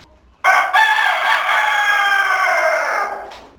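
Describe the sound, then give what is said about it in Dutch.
A rooster crowing in a farm chicken coop in Breda: one loud, long, sustained crow that holds steady for nearly three seconds before breaking off, heard alone. “hier een berichtje uit het kippenhok”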